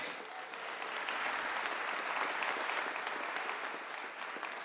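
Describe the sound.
Audience applause welcoming a speaker at a formal state address before the Illinois General Assembly: dense, steady clapping that holds at an even level throughout, with no voice over it.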